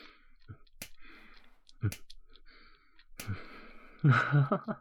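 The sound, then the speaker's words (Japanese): Light taps on a belly: a few soft, sharp pats spaced out over several seconds, with breathy sighs between them and a louder voiced sigh at the end. “ほら、お腹押すだけじゃ足りないでしょう。軽く叩いてあげるよ。”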